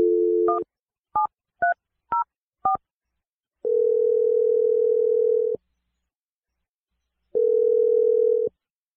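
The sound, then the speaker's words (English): A telephone line gives a brief dial tone, then five short keypad beeps of different pitch as a number is dialed, followed by two long, steady ringing tones separated by silence. “We're going to dial her number now.”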